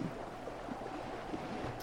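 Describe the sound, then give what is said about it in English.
Rough, stormy sea churns around a small, rickety boat: a steady, dense rush of wind and surf rolls on without a break, with a few low sloshing thumps and no voices. “The boat is small, rickety, pretty reasonably well made, but gazing across the storm-swept skies and the rough seas, you do wonder how easy you're going to find it to make the island,”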